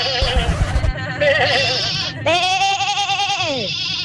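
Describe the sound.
A person imitates a sheep bleating, with a few loud, drawn-out, wavering bleats in a nasal voice and a brief gap between them.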